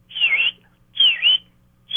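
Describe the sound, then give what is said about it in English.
A person whistles an imitation of a bird's three-note call at a gulch. Two clear, high phrases each dip and rise in pitch, and a third starts at the end, over a low, steady hum. “That's kind of a three-note whistle they often do between each other.”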